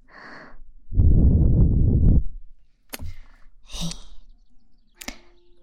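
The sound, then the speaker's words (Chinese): Close breathing sounds: a soft short breath, then a long, noisy rushing breath, followed by a few sharp, abrupt sniff-like snorts separated by quiet gaps. “听一下芷江将军，还有呼吸的声音。”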